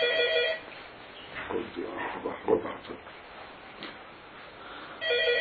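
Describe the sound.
An electronic telephone ring sounds at the start and again at the end, a steady buzzy tone. Between the rings people talk.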